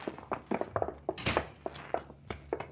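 Footsteps run up a flight of stairs toward a store: a rapid, uneven series of hollow thuds and knocks, many steps in quick succession, steady in loudness and with no talk over them.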